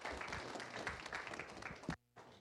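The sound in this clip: Applause from a church audience welcoming a guest preacher as he comes up: dense, steady clapping for about two seconds that stops abruptly.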